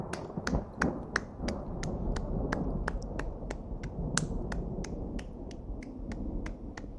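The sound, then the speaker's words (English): Hands clapping in a steady, even rhythm: many sharp, crisp claps at roughly three per second, each standing out over a constant low rumbling background. “Those are my hands clapping, by the way.”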